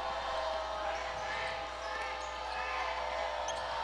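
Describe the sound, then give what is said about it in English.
A basketball is dribbled on a court during a game, the faint bounces tapping repeatedly under a steady low background hum. “in the right corner, dribbling without aim”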